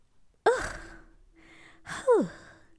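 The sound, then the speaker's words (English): Heavy breathing from someone catching their breath: two loud, voiced sighing breaths, each sharp at the onset and trailing off, separated by quieter breathy rasping. “let me just catch my breath right quick.”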